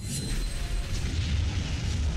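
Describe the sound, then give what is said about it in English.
A heavy booming attack effect for the Meteor Rush move in a monster-battling video game: a dense, rumbling roar that holds steady and loud for the whole span. “Faux Enchantathal used Meteor Rush.”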